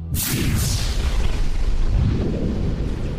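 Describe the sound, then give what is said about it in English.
Starship weapons fire at a hammerhead vessel in a Star Wars battle: a couple of sharp, hissing blasts at the start give way to a loud, deep booming rumble that swells again near the end. “She took aim at the closest vessel, one of the hammerheads, and fired.”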